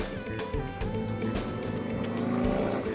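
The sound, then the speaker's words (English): A big Harley motorcycle revving and driving past on a dead-end street, its deep, throbbing engine growl rich in harmonics, loud and continuous throughout. “Wow, it's a big Harley going by, revving his engine at my dead end street, which means he's about to turn around because there's nowhere for him to go.”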